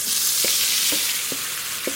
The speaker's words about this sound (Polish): Dajemy to na gorący olej.